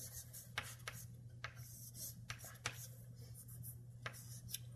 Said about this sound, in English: Let me write it out.